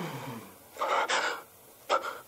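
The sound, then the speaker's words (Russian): Deep breath in, drawn sharply by a man as he straightens up: a breathy, airy inhale of under a second, then a shorter breath, quiet and alone with no talk. “Резко выпрямляется. Делает глубокий вдох.”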